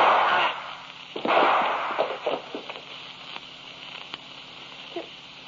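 Gunshot in an old radio murder drama: a loud burst at the start and another about a second later, followed by a few fainter pops and cracks that fade out.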